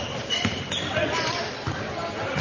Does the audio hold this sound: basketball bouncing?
yes